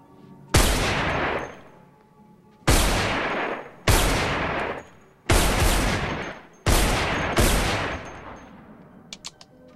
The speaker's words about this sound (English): Private investigator shoots a hole through the partition wall.